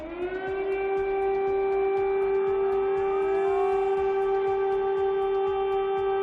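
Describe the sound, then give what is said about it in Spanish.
An air raid siren in Kyiv sounds a loud, steady wail rich in harmonics, rising slightly at the start and then holding one pitch without a break. “cada vez que escucha una de las sirenas antiaéreas, vuelve al parking. Es la señal de alerta para que la población se refugie y se ponga a salvo de los bombardeos.”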